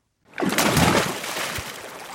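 Water sloshing and splashing as someone swims in the sea of the Gulf of Oman. A sudden burst of churning water begins after a brief silence, then eases into a softer, continuous rush.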